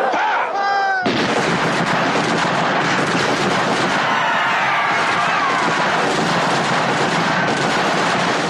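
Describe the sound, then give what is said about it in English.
Gunfire as British troops open fire on people trapped in an enclosed garden at Jallianwala Bagh: after about a second of near quiet, a loud, dense, continuous roar of shots erupts and keeps going without pause. “Jallianwala Bagh, where one British officer leads his platoon into an enclosed garden and opens fire and kills hundreds of people.”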